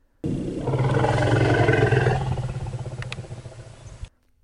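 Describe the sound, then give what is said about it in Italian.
Loud African savanna elephant call: one sustained, deep, roaring vocalization lasting about four seconds with a harsh, broad texture, easing into a pulsing, wavering tail before it cuts off. “Quando questo elefante della savana africana, noto agli scienziati come Margaret, sente questa registrazione, risponde.”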